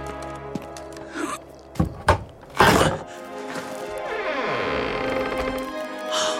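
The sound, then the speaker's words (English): Heavy wooden thuds and a crash as a grave is pried open: a few sharp knocks and a louder splintering hit, followed by a long, drawn-out grinding creak that sinks in pitch. “If the Necronomicon is correct. If, you say? The grave should yield sublime treasure. Pry it open.”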